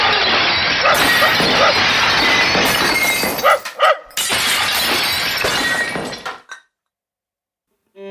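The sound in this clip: Dishes smash against a wall: dense, loud crashing and shattering of breaking plates and glass that runs for several seconds in a busy jumble, then cuts off into silence.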